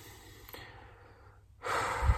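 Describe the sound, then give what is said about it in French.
A deep breath drawn in, a soft breathy hiss that swells and grows louder near the end after a quiet stretch. “inspirer comme ça”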